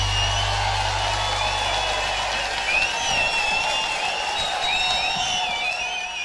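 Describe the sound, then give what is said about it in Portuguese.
A crowd gives a round of applause, steady loud clapping and cheering with high, wavering whistles cutting through the noise, fading slightly at the end. “Brasil! A salva de palmas.”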